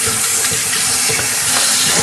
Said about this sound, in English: I'm going to toss these shells in the garbage and wash the raw egg off of my hands.